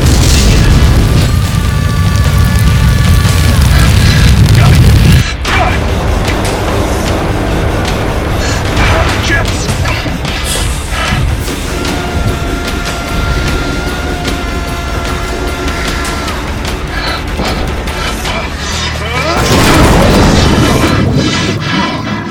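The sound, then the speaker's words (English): A plasma thrower weapon fires in a sci-fi video game, a loud roaring blast with whining tonal streaks. It drops abruptly to a lower, steady hiss partway through, then surges loud again near the end. “Plasma thrower active. Use caution when deploying this weapon.”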